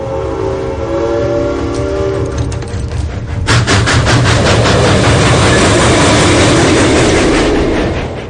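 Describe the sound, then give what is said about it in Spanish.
A train approaches a station. Sustained horn-like tones fill the first few seconds, then loud, rhythmic rumbling and clatter take over and hold steady to the end. “El tren comienza a aproximarse a la estación.”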